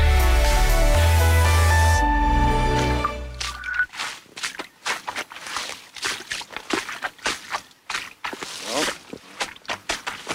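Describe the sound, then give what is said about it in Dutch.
Footsteps squelch and slosh through soft, sucking peat mud on a Sunday morning, many wet steps in an uneven rhythm, coming after a few seconds of unrelated music at the start. “Lekkere zompige geluiden op de zondagochtend. Nou, overheen stappen. Ja, lekker rondstappen in de modder hier.”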